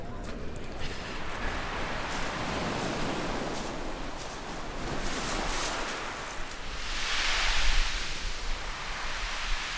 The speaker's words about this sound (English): And that's the sound of walking on Brighton's beach. Millions upon millions of little pebbles.